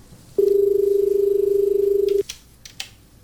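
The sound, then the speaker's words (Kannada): An incoming telephone call connects with a single steady electronic tone that holds for about two seconds and then cuts off abruptly, followed by a few faint clicks. “ಮೊದಲನೇ ಕರೆ ಕೂಡ ಬರ್ತಾ ಇದೆ, ತೆಗೆದುಕೊಳ್ಳೋಣ.”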